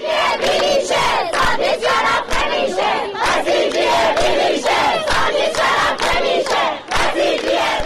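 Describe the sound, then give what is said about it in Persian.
Students chant at a protest at Razi University of Kermanshah. A large crowd shouts in rhythm, with loud repeated bursts of many voices separated by short pauses, continuing throughout. “دانشجویان دانشگاه رازی کرمانشاه دست به تجمعهای اعتراضی زدند. صدای دانشجویان دانشگاه رازی کرمانشاه.”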